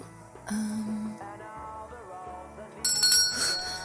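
A bell rings in a video store: a brief bright chime early on, then louder, shimmering high rings near the end over a low, steady background.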